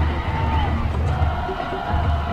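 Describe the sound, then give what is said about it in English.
Cheering from the Riverdale student section, with the school band nearby, at a high school football game: a continuous wash of crowd shouts and whoops at a fairly even level. “You can hear the Riverdale band across the way, student section,”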